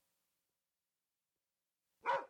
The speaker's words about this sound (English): When you hear that dog bark, you know that one of us has made a bad call when it comes to business.